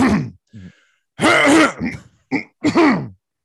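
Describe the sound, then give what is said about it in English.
Someone clears their throat in a few rough, voiced bursts of uneven length separated by short silences, fairly loud and without any words. “Oh, sorry, something caught in my throat right then.”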